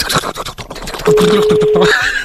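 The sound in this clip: A telephone call is placed, and a single steady, mid-pitched ringing tone of about a second sounds while people talk.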